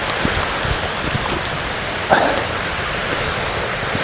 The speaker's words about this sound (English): I'm very close to the waterfall now